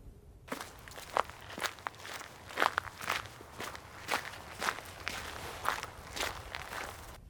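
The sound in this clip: Footsteps of someone heading over on foot, a quiet, uneven run of many steps with soft scuffs between them, with no talk.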